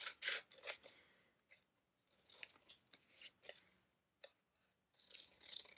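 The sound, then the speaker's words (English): Scissors cut out a small piece of paper in many crisp, quiet snips. They come in uneven bursts with short pauses between them, and no one speaks. “So I'm going to cut this out.”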